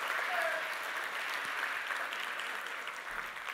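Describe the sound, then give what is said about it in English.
Applause from a church audience for a newly engaged couple during a service: a steady, even patter of clapping hands, moderately faint, continuing throughout without a break. “Chris and Evelyn back there got engaged last night. Give them a hand.”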